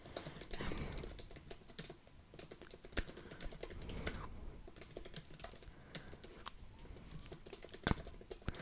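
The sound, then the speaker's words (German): Typing on a laptop keyboard produces many quick, irregular keystrokes, faint overall, with a few sharper clicks standing out in a continuous patter. “Heute dauert es bei mir mit Schreiben. Ich habe den Laptop so dämlich hingestellt.”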